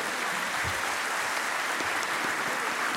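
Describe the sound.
Applause following a joke, a thick, even hiss of many hands clapping together, steady and moderately loud across the whole span without distinct individual claps or talk.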